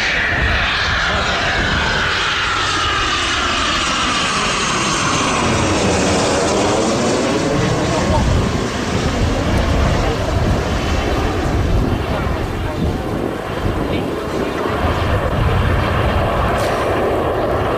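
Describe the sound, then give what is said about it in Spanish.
A Eurofighter combat jet flies overhead during practice flights for an air festival in Gijón. The engine gives a loud, broad roar whose pitch sweeps down as it passes, then keeps rumbling heavily. “Este es el sonido del Eurofighter, un avión de combate de última generación”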